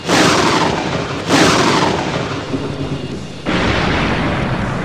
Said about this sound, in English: Let's see how it blocks my Chaos Bolt!